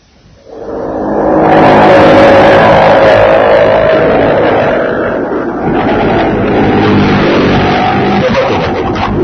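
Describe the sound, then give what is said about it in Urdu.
Engine and road noise from a car driving carefully in traffic on a city road in Lahore: a broad, steady rumble that swells during the first second and then stays loud and fairly even. “وہ صاحب بڑے محتاط driver تھے، اس لیے traffic کے اصولوں کے مطابق گاڑی چلا رہے تھے”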